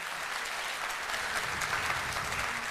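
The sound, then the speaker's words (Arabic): Audience applause greeting ambassadors being introduced at a ceremony, a steady, even wash of many hands clapping at constant loudness for the whole stretch. “والآن إلى السفراء والسفيرات، السفيرات والسفراء، تعالوا نتعرف عليهم بتصفيق عارم من الجمهور.”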